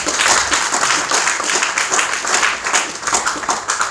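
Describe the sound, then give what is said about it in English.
Audience applause: a dense, steady patter of many hands clapping, loud and even from start to finish without a break. “So you can see, we can clap for that.”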